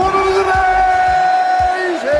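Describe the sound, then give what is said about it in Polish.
A darts announcer bellows the long, drawn-out "one hundred and eighty" call after a maximum three-dart score, a loud sustained voice held over a roaring crowd, dipping briefly near the end. “Publiczność wtedy szaleje, a spikerzy wykonują najsłynniejszy chyba darterski okrzyk.”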